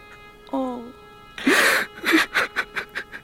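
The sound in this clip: A grown man wailing and crying: a short voiced whimper, then a loud, breathy howl, followed by a run of gulping, choking sobs that weaken slightly toward the end.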